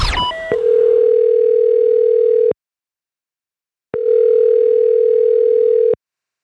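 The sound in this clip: Telephone tones of an outgoing call in a prank call about pet rats: a quick descending run of beeps, then a long steady tone, silence, and a second identical long tone, loud and alone.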